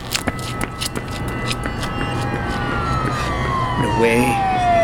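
A police car siren wails as one sustained tone that glides slowly downward in pitch and grows a little louder, cutting through background noise.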